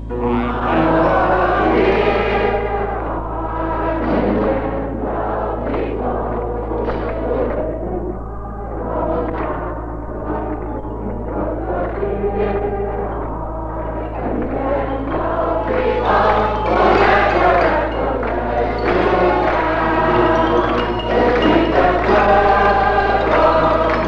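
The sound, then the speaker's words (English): A television studio audience singing together, a sustained, full mass of voices moving through a melody in long phrases over a constant low hum. “you want to hear the singingest audience in television? Here they are.”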